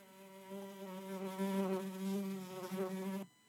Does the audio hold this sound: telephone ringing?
no